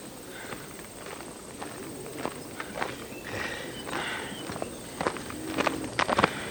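Footsteps of Roman legionaries marching uphill from the Werra river to a camp: many irregular, crunching steps at moderate volume over a steady background hiss.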